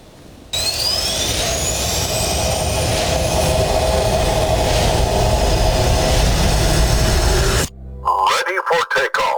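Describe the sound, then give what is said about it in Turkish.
Jet roar of a Hürjet jet trainer aircraft flying overhead on its first flight: a loud, sustained whine and rumble with a slowly rising high tone that holds for about seven seconds, then cuts off abruptly into brief, choppy sounds. “Türkiye'nin gurur projelerinden biri olan Hürjet gökyüzünde böyle süzüldü.”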